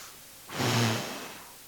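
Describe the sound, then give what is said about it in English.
Someone imitates blowing breath over food at a home barbecue with one soft, breathy puff that swells and fades over about a second, with no talk. “there might be a time during that event where I just start profusely blowing on all the food. Breathing in deep”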